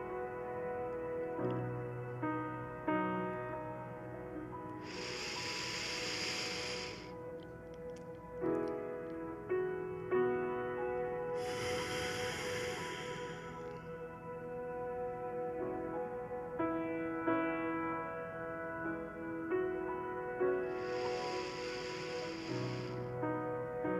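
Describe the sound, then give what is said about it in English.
Three slow deep breaths during a guided relaxation, each a soft airy rush of air, come at even intervals over a quiet sustained musical backdrop. “Let's take three deep breaths together as we begin to relax our body and mind.”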